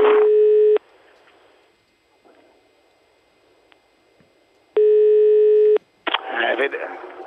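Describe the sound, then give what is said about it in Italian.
Telephone ringback tone on an outgoing call: two long, steady, loud tone bursts about four seconds apart with quiet line hiss between them, followed by a voice at the end. “Ah, ecco qua, squilla, rispondi”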